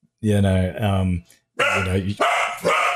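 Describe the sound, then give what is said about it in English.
A pet dog barks and yelps loudly in two long, tonal bursts separated by a brief pause. “sorry about that, my dog.”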